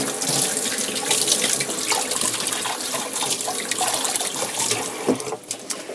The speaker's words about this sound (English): So, wash off the hands.